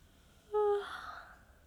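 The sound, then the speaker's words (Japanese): A single sleepy yawn during a rooftop lunch, opening with a brief voiced, tonal sound that trails off into a soft, breathy exhale. It is fairly quiet and heard alone. “あ、ごめん。あくび出ちゃった。なんか眠くって。”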